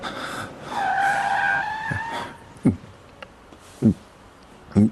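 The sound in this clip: A car brakes to a stop with a high, loud tire squeal lasting over a second, followed by three short, dull thuds.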